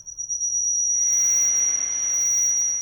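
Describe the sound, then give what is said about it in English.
Shrill audio feedback squeals through speakers and back into a desk mic: a thin, steady high whine runs throughout, and a loud hiss of static floods in after about a second and holds to the end. “A high and thin and shrill sound pierced Dan's speakers, feeding back into his desk mic”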